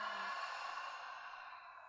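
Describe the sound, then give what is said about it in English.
Open-mouth exhale during a guided breathing exercise: a soft, steady breathy rush of air lasting about two seconds and easing off slightly toward the end, with no talking. “Let's take three cleansing breaths here together. Nice long inhale through your nose. Open mouth exhale, let that go.”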